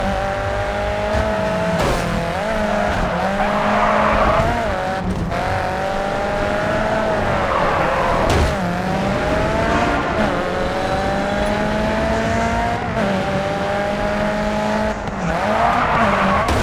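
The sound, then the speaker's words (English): Tires squeal as a car drifts in a racing video game, the shrill tonal screech wavering over a steady engine drone and rising and falling through many drifts, loud and continuous, with no talk. “You picked a great drift spot there. That got you the objective.”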